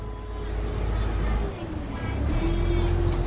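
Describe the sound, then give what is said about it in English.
Chao Phraya Express passenger boat on the river in Bangkok gives a continuous low engine rumble and droning hum, fairly loud and steady throughout, with a brief dip in level near the middle. “That's the sound of the Chao Phraya Express boat.”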